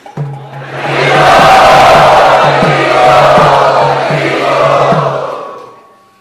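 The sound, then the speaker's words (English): Loud crowd cheering and shouting to welcome guests asked to stand at a gathering: a swelling roar of many voices that holds for about five seconds, then fades away, with a steady low tone running underneath. “let us welcome them again very loudly”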